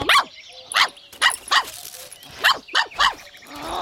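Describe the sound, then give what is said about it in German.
A stubborn dachshund barks on a walk, letting out a series of sharp, high-pitched barks in an uneven rhythm, each one short and loud. “Jetzt bleib da nicht sitzen. So ein sturer Dackel.”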